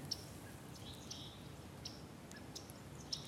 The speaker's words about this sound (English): Beautiful afternoon with yellow rump warblers, chickadees,